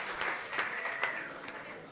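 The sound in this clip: Audience applause at a live stage show as a man from the crowd is called forward: a continuous wash of clapping with a few sharper, louder claps standing out, moderately faint.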